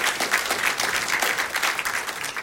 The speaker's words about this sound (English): Well, thanks to the worship band. Let's give them a clap and that for leading us so beautifully.